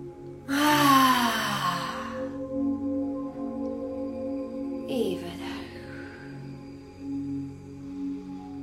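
A deep breath drawn in through the nose during a relaxation exercise: a loud, airy intake near the start, then a fainter breath a few seconds later, with no talking.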